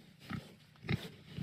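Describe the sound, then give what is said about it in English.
Pig grunts from a small herd reared outdoors on a farm: a few short, low, rough grunts spaced apart, each fairly faint against a quiet background. “Around a dozen pigs are also reared outdoors here at Ferme Dubuis.”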